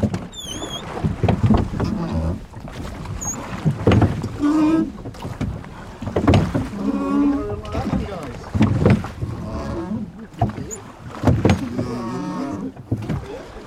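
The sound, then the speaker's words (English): Oars splash and knock as a rowing crew pulls together on the water, a steady stroke rhythm under continual talk from the people aboard. “Okay, everybody oars. Give way. Together.”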